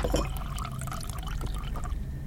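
Water being poured into a drinking glass, a faint, steady trickling and splashing stream that runs continuously for a couple of seconds over a low background hum.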